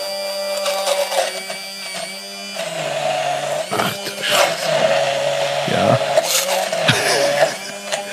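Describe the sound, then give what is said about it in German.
An immersion blender purees a sweet mixture, its motor whining in bursts that shift in pitch and loudness, while people talk over it. “So, nun der Zauberstab. Mhm. Oh, das Kabel reicht nicht ganz. So kannst du es sehen, dass ich es wirklich püriere. Ja. Ich glaube, man hört es auch jetzt.”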